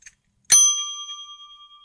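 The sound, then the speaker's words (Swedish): Desk bell struck once with a bright metallic pling that rings on and slowly fades, after a tiny faint tap just before. “Det var halvhjärtat att sträcka sig bort och liksom plinga i”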